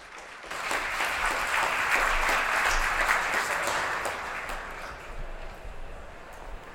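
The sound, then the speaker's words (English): Audience applause welcomes a speaker at a morning business event on European markets and Brexit: dense, sustained clapping that runs for about seven seconds and eases slightly toward the end. “So ladies and gentlemen, please join me in giving a warm welcome to Mr. Paul Brundage.”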